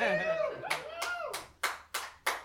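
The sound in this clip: Rhythmic clapping from an audience at a live comedy show. Six evenly spaced, sharp claps follow a brief stretch of a voice speaking.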